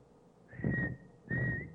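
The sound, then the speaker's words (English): Two short whistled notes serve as a signal in a tonal drum language. Both are clear, high and held at nearly the same pitch, separated by a brief gap, with faint breathy noise beneath each. “and this in the language would mean one. You wouldn't have to say the word, just whistle a note or hum a note.”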